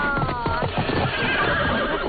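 A horse neighs while being ridden, a loud, high, wavering whinny that follows a few clip-clopping hoof steps.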